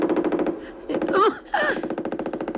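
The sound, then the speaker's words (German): Machine gun fire in a wartime scene by a meadow: a rapid, loud, steady rattle of shots that breaks off briefly mid-clip, then resumes at the same pace. “Natürlich hatte Petrus hinter dem MG gelegen und hatte gewartet.”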